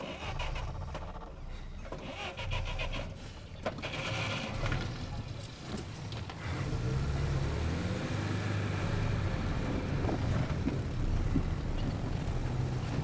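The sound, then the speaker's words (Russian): A man gets into a car, with faint mechanical clicks, rattles and clunks from the door and fittings. A steady low rumble follows and fills the second half. “Александр садится в машину.”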